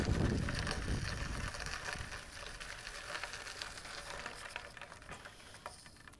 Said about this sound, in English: I'm literally riding my bike around this.